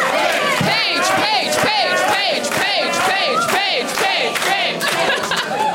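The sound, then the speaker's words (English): A live show audience chants an audience member's name in unison, a loud rhythmic chorus of many voices that repeats the same short call over and over without pause. “That might be the first chant for an audience member.”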